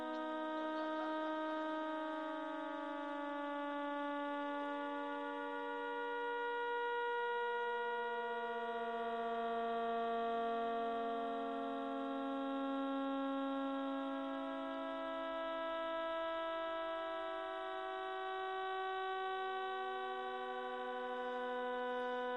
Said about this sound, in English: the 16 recorded millisecond pulsars in 47 Tuck are making this sound right now.